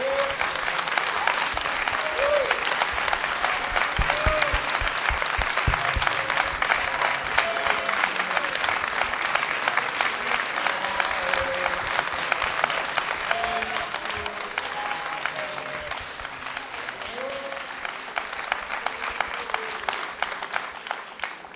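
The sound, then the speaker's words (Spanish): An audience applauds at a tribute to a national folk singer. The clapping is loud, continuous and densely layered, keeps going at full strength for most of its length, and thins slightly toward the end. “Y me parece que sería bueno que todos nosotros le dediquemos un aplauso grande a la cantora nacional.”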